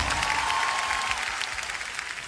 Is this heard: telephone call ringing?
no